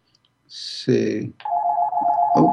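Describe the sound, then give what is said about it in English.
A phone rings with a steady electronic tone that holds for over a second after a brief burst of someone speaking. “let me turn that phone off.”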